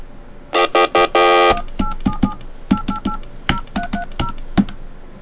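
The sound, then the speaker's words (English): Touch-tone beeps of a telephone number being dialed: a few longer buzzy tones, then a quick, uneven run of many short, clear two-note beeps, loud and with no talk. “I dialed the wrong number. I dialed Satan's hotline.”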